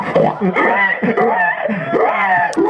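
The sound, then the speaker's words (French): A woman imitates a pig squeal at a pig-calling contest, giving loud, shrill, continuous voiced wails that slide up and down in pitch with barely a break. “Oui, c'est un cri de cochon, oui, mais c'est élégant.”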